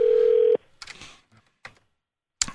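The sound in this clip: A telephone dial tone plays on an old, long-unused phone while a call is placed: a steady, loud single-pitch hum that cuts off abruptly, followed by a few scattered clicks and a sharp final click.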